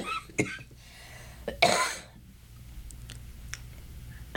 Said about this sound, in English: sorry, I still have a little cough here